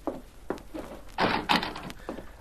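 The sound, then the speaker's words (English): A door being pushed partly open, heard as a few dull knocks and thuds followed by louder rasping, scraping bursts of the door moving, fairly faint overall and with no talk over it. “Looks to me as if the door is partly open.”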